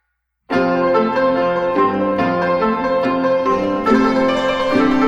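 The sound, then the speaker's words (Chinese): Bright, hammered notes of a yangqin, a Chinese hammered dulcimer, ring out after a brief silence. A few struck tones and chords overlap into a sustained, shimmering, piano-like wash. “这是扬琴的声音， 是不是很像钢琴呢？”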